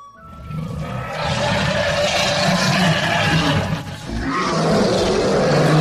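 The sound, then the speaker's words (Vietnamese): Wild beasts roar from far across a vast, chaotic canyon, a loud, rough, sustained mass of deep growling that dips briefly and then surges back just as strongly. “nơi xa đột nhiên truyền ra thanh âm to lớn. Đây vốn là một hẻm núi lớn, bốn phía hỗn độn, nhưng nơi xa rộng lớn vô biên, truyền đến tiếng man thú gào thét.”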